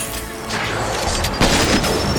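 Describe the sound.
Gunfire from a hacked heavy robot shooting at its own side: a dense, continuous crackling barrage with a sharper, louder burst partway through, loud throughout.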